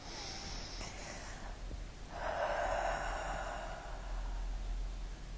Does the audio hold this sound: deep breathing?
yes